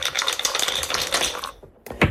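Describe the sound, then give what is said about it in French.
Dice being thrown during a radio game show, rattling and clattering densely for about a second and a half, then a brief pause before one final sharp clatter. “Vous êtes prêt à relever un défi, alors vous dites c'est parti, mais ça ne nous suffit pas pour déclencher le lancer de dés.”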